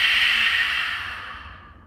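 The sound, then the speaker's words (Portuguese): Breathing during a Lu Jong therapeutic yoga exercise: a long, airy breath that sounds like an exhale, a soft steady hiss that slowly fades away to silence. “inspira, puxa o ar, expira na transformação.”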